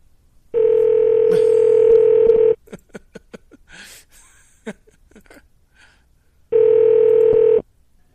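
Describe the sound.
A telephone call placed through Google Voice rings out and connects: two long, steady ring tones separated by a pause filled with faint clicks and soft breathy sounds.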